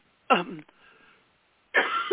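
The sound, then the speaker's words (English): Two harsh coughs with a muffled, narrow-band quality. The first ends in a brief rasping tail, then comes a gap of about a second before the second. “I'm going to hang up and go cough for 10 minutes.”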